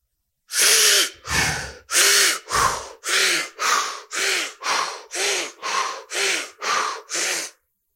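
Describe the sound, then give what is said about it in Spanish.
Rhythmic mouth breathing, as if sipping through a straw, sounds as twelve even, breathy bursts alternating inhale and exhale in a steady paced exercise rhythm, with short silences between each breath. “Inhalas por la boca, como si estuvieras tomando de un popote. Y al exhalar, también lo haces por la boca. Yo te marco el ritmo.”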